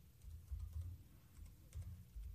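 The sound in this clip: Soft, faint typing on a computer keyboard as a search term is entered: many quick keystrokes tapping over a low rumble.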